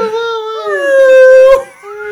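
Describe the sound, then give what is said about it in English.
A person imitates a whale call by blowing through the lips, making a sustained, wavering tonal whine with bright overtones that bends upward, breaks off briefly near the end, then resumes at a lower pitch, all in about two seconds. “That's a whale noise.”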